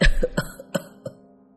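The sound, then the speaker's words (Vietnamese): An old man's dry cough: several short, harsh coughs in quick succession, the first the strongest and the later ones weaker, with no talk. “cụ già đưa tay lên bịt miệng, ho khan mấy tiếng”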